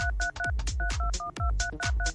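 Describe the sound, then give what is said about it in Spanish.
Telephone keypad dialing a number: a rapid, even string of many paired-tone beeps at a steady mid pitch, heard alone with no talk. “vamos a marcar. A ver, marcando ahora.”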